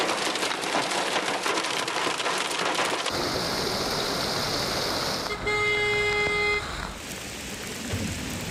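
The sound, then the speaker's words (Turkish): Heavy rain pours down in a downpour over the capital city, a dense, steady, loud hiss that runs the whole time, with a car horn sounding a brief sustained toot near the end. “Başkentte öğle saatlerinden sonra başlayan sağanak yağmur etkili oldu.”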